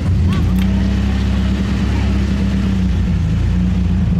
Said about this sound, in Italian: salgo sul mio fuoristrada